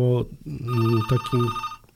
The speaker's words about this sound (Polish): Ktoś do nas dzwoni.